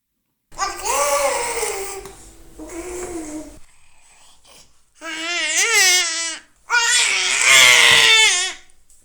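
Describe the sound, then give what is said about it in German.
A young child imitates a velociraptor with four drawn-out, raspy screeching cries. The first two run together, a quiet gap follows, then two louder, shrill shrieks end the run. “wie macht ein Velociraptor?”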